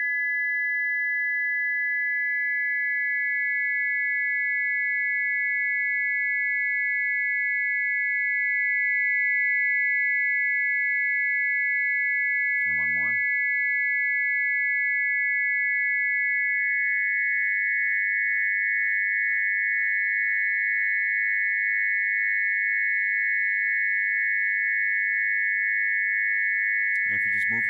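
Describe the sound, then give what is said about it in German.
Steady, high-pitched pure sine tones layered together to produce a low phantom tone inside the head, holding evenly throughout with two brief glitchy blips, one midway and one at the end. “Man hört auch einen tiefen Ton, 300 Hertz. Der entsteht im Kopf. Ich nehme noch einen Ton hinzu.”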